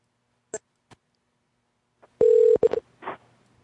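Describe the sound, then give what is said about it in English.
Telephone dialing for a call to an aquarium: a few faint clicks, then a loud, steady electronic tone followed by several short beeps and a brief noisy burst, with no voices. “I'm going to do a call. I'm calling an aquarium.”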